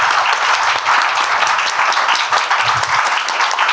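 Audience applause welcomes two musical guests at an opera production event: dense, steady clapping from many hands continues without a break throughout.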